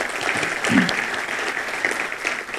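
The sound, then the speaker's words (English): Audience applause at an evening history lecture program honors council members and supporters, with moderately loud, even clapping that continues steadily throughout. “Let's give all of them a good hand.”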